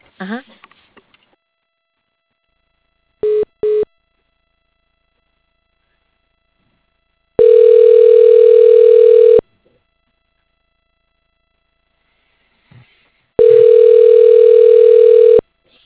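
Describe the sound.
Telephone line tones sound as a call is transferred to voicemail: two short beeps, then two long, steady tones of about two seconds each, separated by silence.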